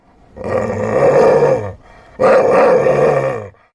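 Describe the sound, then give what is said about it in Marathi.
An angry dog growls in two long, rough, sustained snarls separated by a short gap. Both are loud and low to mid pitched, with no voices. “दोन, रागावलेला कुत्रा।”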